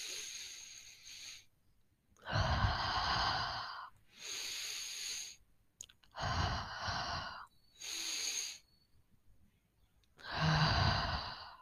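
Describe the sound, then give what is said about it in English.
Deep breaths in and out come as five long, airy, hissing breath sounds, each separated by a brief quiet pause, with no talk. “So let's take a deep breath. So 3, 2, 1.”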